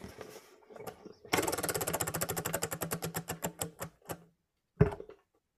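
Rapid ratcheting clicks of a prize wheel being spun, loud and dense at first, then spacing out and slowing over about three seconds until they stop, followed by a single thump.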